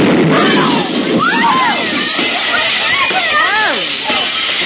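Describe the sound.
Steam hisses steadily from a failing school boiler, a loud continuous rush that runs through the whole clip while voices call out over it.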